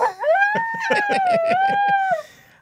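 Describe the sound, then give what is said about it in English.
A dog howls and whines in a sustained, wavering high tone broken by a quick series of short yelping pulses, lasting about two seconds before trailing off. “My dogs want to be on this podcast so bad. And I appreciate that if you don't edit it, they will.”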